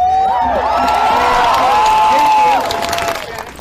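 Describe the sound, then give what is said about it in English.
Crowd cheering and whooping at a Black Lives Matter protest in June 2020. Several voices rise in loud, overlapping woos over a constant crowd roar, which drops away over the final second. “Old Mate just said, black Aboriginal woman, and the audience is like, woo, woo.”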